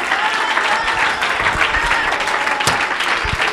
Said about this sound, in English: Oh, clap your hands unto the Lord.